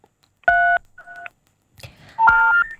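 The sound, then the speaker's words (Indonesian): Telephone keypad tones as an incoming call connects: a few short, pure beeps of differing pitch, the later one mixed with crackly line noise. “Kita terima telepon terakhir di Indonesia Banget hari ini.”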